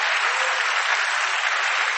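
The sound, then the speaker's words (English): Applause from a church audience clapping during a sermon: dense, continuous, even clapping from many hands, loud and steady throughout, with no voices standing out. “Clap for God.”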